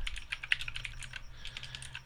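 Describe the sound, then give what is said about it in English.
Typing on a computer keyboard: many quick, soft key clicks in an uneven rhythm, faint and with no one talking. “I type in Blade to fucking Wikipedia and it pulls out knives and shit.”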